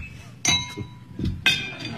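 Glasses clink together in a toast, giving a few bright, ringing clinks with short shimmering tails, spaced about a second apart.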